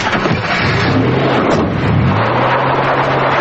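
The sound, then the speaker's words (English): Van engine as it backs up and then drives away: a loud, steady drone with a wind-like rush, the engine note climbing as the vehicle pulls off. “Frost backs up the van and drives away.”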